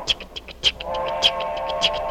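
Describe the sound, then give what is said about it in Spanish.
A little train runs along the track with rhythmic clacking bursts repeating at an even pace, joined partway through by a sustained steady tone. “Se dice que una vez había un trenecito que se deslizaba veloz a lo largo de la vía.”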